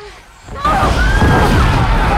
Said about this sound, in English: A massive Necromunga's tower arrows past him and hits the ground nearby. The explosion reflects in the lens of Riddick's goggles.